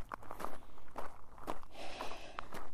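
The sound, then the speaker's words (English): Footsteps of people climbing uphill outdoors on an overcast, near-freezing day, a steady series of crunching steps about every half second, moderately loud and with no talking. “But yes, we are still climbing.”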